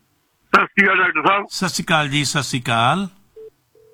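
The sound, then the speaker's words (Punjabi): A telephone line tone after a disconnected phone call: two short, steady mid-pitched beeps, the second cut off, following a stretch of talk. “ਹਾਂਜੀ ਤੁਹਾਡਾ phone ਡਿਸਕੋਨੈਕਟ ਹੋ ਗਿਆ ਜੀ ਤੁਹਾਡੀ ਕਾਲ ਮੈਂ connect ਕੀਤੀ ਸੀ ਡਿਸਕੋਨੈਕਟ ਹੋ ਗਈ”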